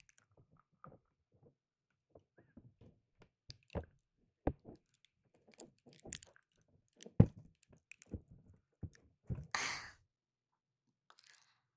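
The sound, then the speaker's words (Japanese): Teeth gnawing and rubbing against the rim of an ear, heard as many soft, wet squishes and clicks in an irregular sequence, quiet with silent gaps between, plus a brief breathy hiss near the end. “ガシガシと歯で耳の縁をこすってみたり、”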